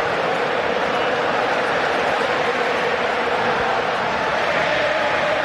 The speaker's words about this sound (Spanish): Está enloquecido el público argentino.